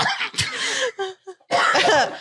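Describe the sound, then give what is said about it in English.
A smoker's cough: a few harsh, raspy coughing bursts with short throaty hacks and wheezy catches between them. It is loud and rough, and no one talks. “you're over there coughing. What the? You got emphysema. That smoker's cough.”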